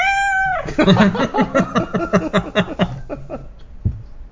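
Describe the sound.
A cat meows in a few drawn-out, wavering calls. The cries are fairly loud and carry a strong tonal quality, then trail off into quieter sounds toward the end.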